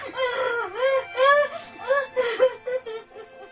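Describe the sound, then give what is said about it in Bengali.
A woman cries in grief for her dead father, with wavering wails and whimpering sobs that rise and fall in pitch in a long uneven series, fairly soft throughout. “দেখুন যে বাবার জন্য কিভাবে কাঁদছে।”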